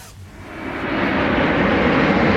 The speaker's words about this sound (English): the roaring sound of the engine of a plane will mark the beginning of the song and will sound like this.